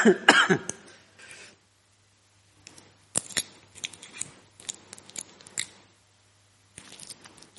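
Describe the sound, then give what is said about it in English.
A sweet wrapper crinkles loudly as it is torn open, followed by scattered rustles, soft clicks and mouth sounds as the sweet is eaten, with long quiet gaps between. “Excuse me. Are you okay if I just have a sweet?”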